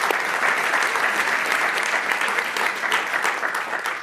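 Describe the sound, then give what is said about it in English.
Sustained audience applause welcoming a dean praised as highly influential in legal education; dense, steady clapping fills about four seconds, easing slightly at the very end. “So please join me in welcoming Dean Chemerinsky.”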